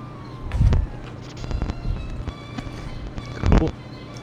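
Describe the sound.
Footsteps climbing a staircase indoors: a few heavy, low thumps spaced unevenly, with softer shuffling between them over a faint background hiss.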